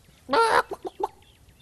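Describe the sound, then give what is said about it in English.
A chicken lets out one loud, drawn-out squawk, then three quick, short clucks in a row. “A chicken? Mm-hmm. A chicken. Yes, sir, right here. You brought me a chicken?”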